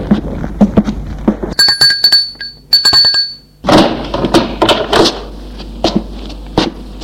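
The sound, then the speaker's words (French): A doorbell rings at a home with two short, bright chiming rings, surrounded by loud thumps and knocking. “sonne chez elle pour la prendre”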